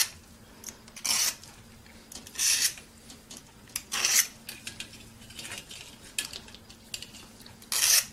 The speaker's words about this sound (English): we're going to scrape off all... This is magnetic wire, and that red that you're seeing is the insulation. So we're going to take that and just go... Yes, peel it like an onion.